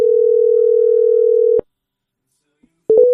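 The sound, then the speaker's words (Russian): A steady telephone dial tone sounds while a number is redialed, then cuts off. After a short silence, a few brief dialing tones follow. “Набираю еще раз.”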